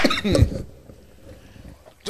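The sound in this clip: Coughing and choking after inhaling a sweet chili chip: a sudden loud, harsh splutter in the first half-second, then quiet breathy noise with no clear talk.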